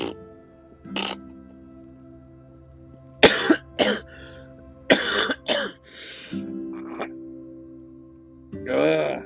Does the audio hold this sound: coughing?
yes

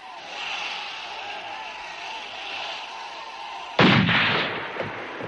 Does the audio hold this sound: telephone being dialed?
no

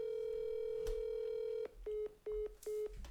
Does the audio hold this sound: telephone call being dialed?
yes

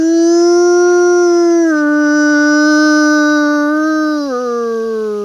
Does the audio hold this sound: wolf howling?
yes

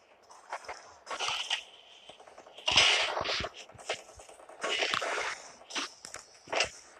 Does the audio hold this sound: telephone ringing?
no

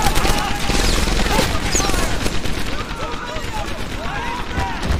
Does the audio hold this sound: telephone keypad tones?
no

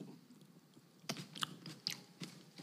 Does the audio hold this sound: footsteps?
no

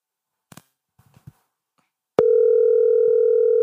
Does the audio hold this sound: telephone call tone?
yes

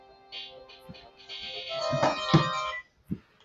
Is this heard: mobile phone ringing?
yes

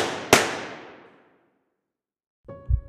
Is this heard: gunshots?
yes

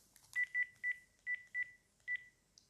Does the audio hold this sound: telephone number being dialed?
yes

